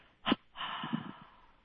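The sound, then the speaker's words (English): Two exhalations pushed out through the mouth during a meditation breathing technique: a short, sharp puff, then a longer, steady breathy rush that tails off, faint and with no talk. “Expel the breath through the mouth in a double exhalation.”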